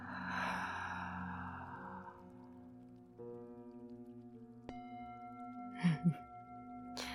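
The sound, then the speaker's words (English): Soft breathing in and out, a faint airy exhale at the start and two brief breaths near the end, over a quiet steady tonal drone. “listen to the sound again as you inhale and exhale.”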